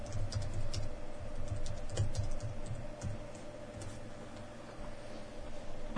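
Typing a search on a computer keyboard: a steady run of many quick, light keystrokes in an uneven rhythm over a constant low hum, with no voices.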